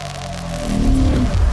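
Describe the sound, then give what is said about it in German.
A car driving, heard as a loud, steady engine and road rumble whose low engine tone swells and climbs in pitch from about the midpoint, with no voices. “Hast du nicht ein bisschen schlechtes Gewissen, dass du im Auto fährst?”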